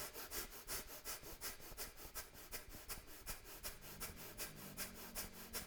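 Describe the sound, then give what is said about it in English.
Rapid, forceful breath-of-fire breathing in and out through the nose: many quick, even rushes of air in a steady rhythm, faint throughout, with a low hum entering near the end. “I want you to go breath of fire right now as fast as you can, in and out through the nose, in and out through the nose right now.”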